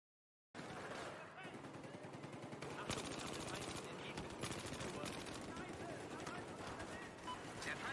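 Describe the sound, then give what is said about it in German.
Rapid automatic gunfire from a TAR-21 rifle in the video game Battlefield 4 rattles out as many fast, dense shots in sustained bursts, faint overall and continuing for the whole stretch after a brief silent start. “Ist das die Tar? Battlefield 4 Waffen muss ich immer ein bisschen länger überlegen.”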